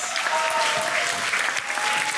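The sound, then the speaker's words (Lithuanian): A studio audience applauds to welcome a guest performer, actor and director: a short burst of full, evenly sustained clapping that stays loud for about two seconds. “Pasitikite aplojimais”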